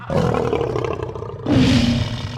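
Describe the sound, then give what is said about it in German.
Lion roaring: two loud, rough, low-pitched roars follow one another, each sustained and growling, with no voices. “Löwen?”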